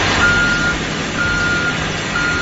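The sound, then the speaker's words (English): Reversing beeps from a bus sound as long, steady high-pitched tones, two full beeps and a third cut off, repeating evenly over a low engine rumble. “That is the noise of the bus that is constantly running over Trevor Siemian.”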